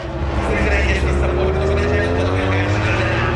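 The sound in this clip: Marc Márquez's Ducati Lenovo number 93 MotoGP motorcycle on a fast racing lap: a loud, sustained engine howl with a steadily climbing pitch.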